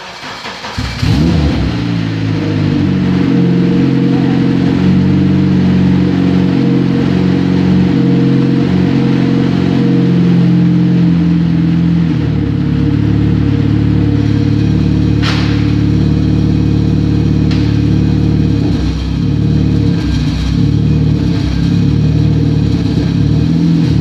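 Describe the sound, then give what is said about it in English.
A Lamborghini engine starts up and revs, firing into a loud, throaty, steady drone whose tone shifts a few times as the throttle is worked, with no talking. “it has a nice Lamborghini display there. So it says neutral, and I'm going to start it up.”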